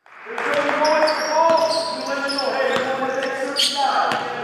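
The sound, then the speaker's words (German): Basketball bouncing on a parquet court during FC Bayern basketball practice, sharp thuds at irregular intervals mixed with people talking throughout. “Immer wieder sprintet der Coach der FC Bayern Basketballer übers Parkett, blockt, schnappt sich den Ball, macht vor, was er von seinem Team sehen will.”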